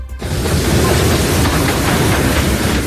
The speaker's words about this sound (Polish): zabytkowy pociąg z niemieckim parowozem. Lokomotywa na jednym z peronów stacji Szczecin Główny właśnie wyrusza do Berlina.